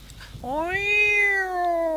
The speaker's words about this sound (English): What a cat. A cat again.